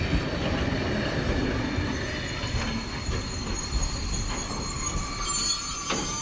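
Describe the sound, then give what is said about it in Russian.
A steam locomotive brakes to a stop with a steady heavy rumble. High, thin metallic wheel squeals ring over it and grow a little sharper toward the end. “Паровоз останавливается.”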